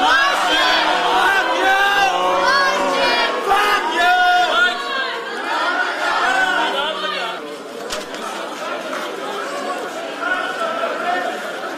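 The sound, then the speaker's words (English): A large audience shouts and chants together, a dense, loud wall of many overlapping voices with rising and falling calls that keeps going for about twelve seconds. “But, well, we heard the audience, and did you understand what they were saying?”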